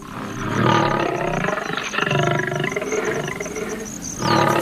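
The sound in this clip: Young lions about two years old roaring: a deep, loud, sustained roar that rumbles on for several seconds with slight swells in volume, alone with no talk.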